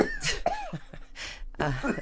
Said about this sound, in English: I'll explain it while you're coughing.